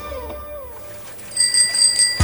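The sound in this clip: A bicycle bell rings with bright, high metallic tones a few times, rising clearly over a low, quieter background rumble.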